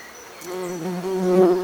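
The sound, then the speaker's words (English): Wasps buzz in a steady, harmonic drone that grows gradually louder over its short length, with no voices. “You never said there'd be fucking wasps”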